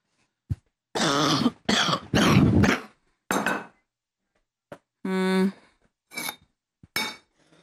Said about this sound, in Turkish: Bu alerjiyle öksürük,